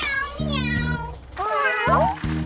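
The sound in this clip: Kittens in a children's cartoon meow in high, wavering cries, one long call and then several overlapping meows, against a low, steady tonal background.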